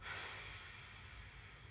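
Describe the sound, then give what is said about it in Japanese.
A single deep breath is exhaled slowly during a relaxation breathing exercise. It sounds like a soft, airy hiss that starts strongest and gradually fades, quiet and alone with no voices. “深呼吸何回かするだけでもすっきりするので”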